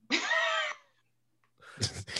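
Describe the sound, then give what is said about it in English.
A single sneeze bursts out sharply, then a short pause and someone talking. “Hey, bless you.”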